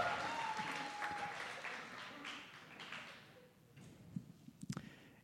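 Faint audience applause greets a host introduced on stage at a live event. It forms a soft, steady wash of claps that thins out after about three seconds, leaving a few scattered claps near the end.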